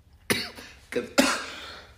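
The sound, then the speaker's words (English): Three sharp coughs from one person, the first two short and the last one harsher and longer with a trailing rasp, separated by brief quiet gaps. “Because I was trying to not cough.”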